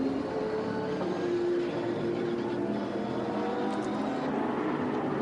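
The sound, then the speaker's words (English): Onboard engine drone of a race car in a class-based sports-car race, its throttle hesitating, heard as a steady, loud buzzing roar with layered harmonics and no clear breaks. “You could just hear the hesitation in the throttle.”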